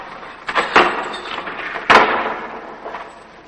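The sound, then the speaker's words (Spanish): A heavy door is opened in an underground passage leading to a dungeon in a wartime prison camp. Two loud clunks come roughly a second apart, trailed by a fainter rattle. “Abren una puerta.”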